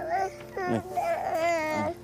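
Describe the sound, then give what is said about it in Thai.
A young child cries and whimpers in short, wavering, high-pitched bursts broken by brief pauses. “ร้องไห้ทำไม ร้องไห้ทำไมร้องไห้ทำไม”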